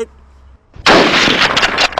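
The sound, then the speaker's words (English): Dense burst of gunfire in a Telltale video game: a loud, continuous crackling barrage of rapid shots that lasts a little over a second after a quiet lead-in. “They're firing at me. They're firing bullets at me.”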